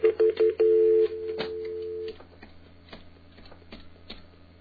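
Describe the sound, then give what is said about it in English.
Telephone dialing tones: a few quick beeps followed by two longer steady tones, then faint clicks and rustling. “Folks, stop dialing your own number.”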